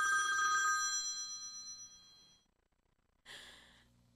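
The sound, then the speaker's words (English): A mobile phone ringtone left off do-not-disturb: steady, bright tonal notes that fade over about two seconds, then a short gap and a second brighter burst of ringing. Quiet overall, with no talk. “That was my phone. I need to do the same, but that was definitely my phone. I didn't put it on Do Not Disturb,”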